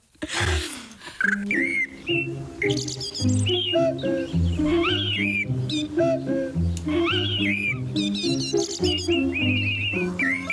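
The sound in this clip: Bird-like whistled chirps and trills run over a musical jingle with steady low bass notes, bright and lively throughout.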